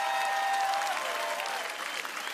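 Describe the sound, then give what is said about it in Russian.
Audience applause after a musical number at a New Year show, a dense, continuous wash of clapping that stays loud throughout, with traces of music under the start. “Друзья, ваши аплодисменты.”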